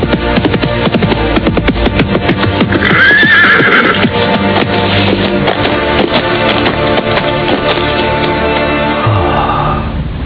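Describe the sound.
Horse being ridden, its hooves keeping up a steady, loud clip-clop throughout, with one whinnying neigh rising over the hoofbeats partway through.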